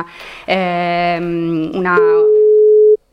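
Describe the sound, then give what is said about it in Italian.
A telephone line tone while a guest is being dialed: a buzzy, harmonic-rich tone, then a steady, pure single-pitched tone held for about a second before cutting off. “lo stiamo già chiamando, scusatemi, il bello della diretta, stiamo chiamando il nostro ospite”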